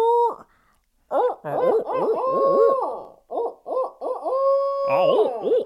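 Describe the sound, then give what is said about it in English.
Imitated owl hooting, reworked from a rooster crow: several loud, strongly pitched hooting bursts with bending, crow-like glides and some sustained notes, separated by brief pauses. “I tried to take a rooster crow and turn that into an owl.”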